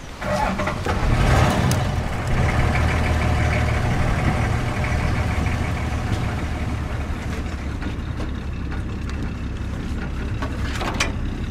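A vehicle engine rumbles steadily while riding through the bush, a loud, continuous low drone with rattling texture and no pauses.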